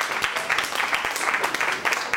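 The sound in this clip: Audience applause at a crowded presentation event: dense, continuous clapping at a steady, fairly loud level throughout, with many overlapping hand claps and no clear pauses.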